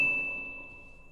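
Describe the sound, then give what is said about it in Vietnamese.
A system notification chime rings as a single bright ding that holds one steady tone and slowly fades over a faint low background. “Hàng loạt những tiếng tinh tinh của hệ thống vang lên.”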